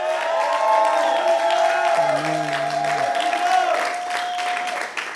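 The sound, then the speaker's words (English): A church audience applauds in praise with a broad, continuous clapping texture. Sustained keyboard-like tones are held over the clapping throughout. “Why don't we give Jesus a hand of praise?”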